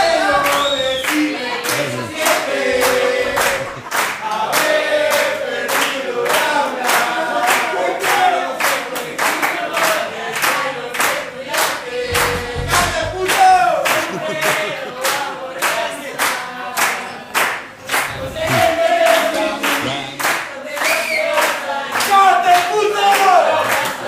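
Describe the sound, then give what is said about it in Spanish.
Crowd clapping hands rhythmically in a steady, even beat throughout, many sharp claps accompanying voices singing a folk song. “Bueno, vamos a hacer palmas y vamos a cantar.”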